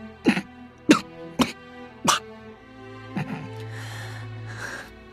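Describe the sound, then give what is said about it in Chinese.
Hoarse, weak coughing: four sharp coughs at a steady pace, then a softer cough that trails into breathy rasps, over a sustained low musical drone. “明贤咳嗽几声，声音嘶哑无力，像是竭尽全力从喉咙里发出来似的。”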